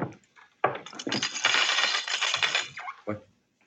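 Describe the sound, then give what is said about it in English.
A curtain being drawn shut: after a faint scrape, a long, broad rustling swish runs for about two seconds, then trails off into a brief final scrape. “Just draw the curtain and then come here and sit down.”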